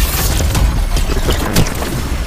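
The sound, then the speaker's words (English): Shotgun blasts in a multiplayer zone-capture shooter video game: a few heavy, booming bursts over dense, constant, loud game noise. “Dang it, I got shot. I got one hit shotgun.”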